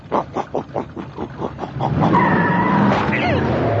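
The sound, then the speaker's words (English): A supercharged riding mower engine opens with a rapid series of loud chugging pulses, then merges after about two seconds into a sustained roar with high, squealing tones over it. “I did it! I supercharged my riding mower!”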